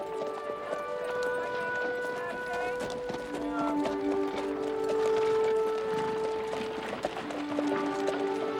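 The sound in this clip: Steady clip-clop of hooves from a team pulling a wagon along a town's main street, a continuous, even rolling rhythm at moderate loudness throughout.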